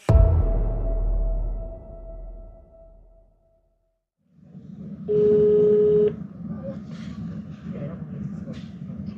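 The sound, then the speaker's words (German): A telephone call is dialed from a hotel, and a single steady phone tone sounds for about a second over a background of low noise. “Ein Anruf bei Sigrid Prader. Auch sie ist eine waschechte Hallstädterin. Wir rufen sie aus unserem Hotel an.”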